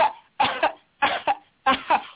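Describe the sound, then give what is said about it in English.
Three rough throat-clearing bursts, each a doubled huff, are separated by short silent pauses and heard alone, without talk. “let me clear my throat”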